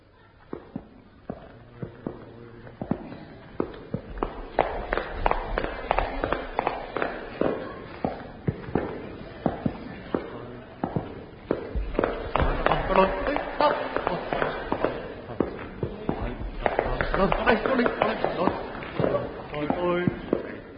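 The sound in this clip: Footsteps of two night watchmen on their rounds through an art gallery after dark, steady overlapping treads tapping out a walking rhythm for the whole stretch, with occasional louder knocks among them.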